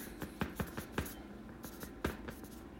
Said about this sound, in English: I'm going to have to write this down.